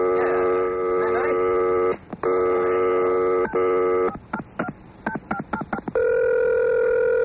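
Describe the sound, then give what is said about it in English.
A telephone call being dialed: a steady dial tone, broken by a couple of short gaps, then a quick series of touch-tone key beeps, ending on another sustained tone. “Okay, let's give him a call right now. Here it is.”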